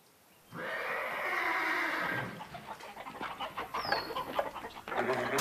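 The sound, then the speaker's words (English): Spooked horses neigh in a barn. A long, loud whinny is followed by a busy stretch of agitated scuffling and clucking fowl. “The chickens are all in a tizzy and the horses have been spooked.”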